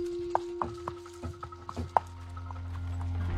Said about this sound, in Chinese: 南瓜马车轰隆隆的驶离房间